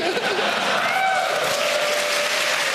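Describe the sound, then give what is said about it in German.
An audience of about a thousand people applauds a musician. The clapping is dense and even and holds at a steady level from start to finish. “Ich stehe vor 1000 Leuten und ich bekomme Applaus für meine Musik.”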